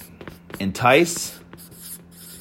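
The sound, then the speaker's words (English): Pen or pencil scratching across paper as notes are written by hand: a soft, continuous rubbing scrape with a brief swell midway, and a voice faintly present underneath. “I'm going to write that down. So we're going to write”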